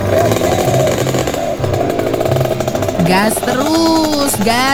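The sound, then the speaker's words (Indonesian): A rare old vehicle's engine revs loudly and roughly, the kind said unlikely to pass an emissions test, giving a buzzing, harmonic-rich drone that wavers and swoops in pitch toward the end. “Gas terus. Lo. Ini lo kendaraan langka yang harus dilindungi keberadaannya.”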